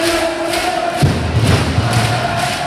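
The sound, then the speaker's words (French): Loud crowd cheering and roaring in the stands at Salle Jaurès during a match, a dense, sustained wall of noise that holds steady throughout without pause. “Une ambiance folle à vous coller le frisson et un niveau de décibels rarement atteint, Salle Jaurès.”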